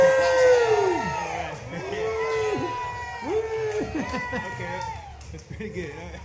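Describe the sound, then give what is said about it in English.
Crowd cheering at a live band show. A few loud hurrahs are shouted in unison, each drawn out and falling in pitch, followed by looser whoops and scattered voices. “Three cheers for transmogrification.”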